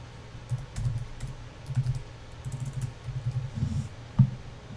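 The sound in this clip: Typing on a computer keyboard: soft key clicks come in short, irregular bursts with brief pauses between them, ending with one sharper click.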